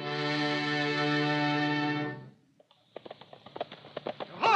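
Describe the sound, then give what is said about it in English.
Paul Revere's horse rides from Charlestown to Lexington. A long sustained tonal sound gives way, after a short pause, to a run of quick clip-clop hoofbeats that grow louder. “Well, that must be Paul Revere riding from Charlestown to Lexington to warn the colonists that the English soldiers are on the march.”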